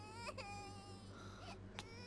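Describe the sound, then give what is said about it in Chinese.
A baby crying just after a needle is inserted during an injection, faint and high-pitched, with wavering wails and a few sharper bursts of sobbing. “哎呦，不哭啊， 不哭不哭。”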